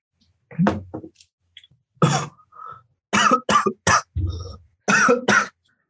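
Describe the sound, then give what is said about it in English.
Coughing after choking on Diet Coke: a loud, irregular run of harsh coughs and throat clearing, bursts coming in quick clusters separated by short gaps. “Excuse me, I just choked on some Diet Coke.”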